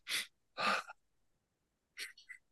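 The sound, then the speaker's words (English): Breathing exercise in which two quick breaths are drawn in through the nose, heard as two short, airy bursts close together, followed after a pause by a softer breath out. “two quick breaths in the nose and a long breath out”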